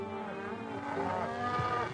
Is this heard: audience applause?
no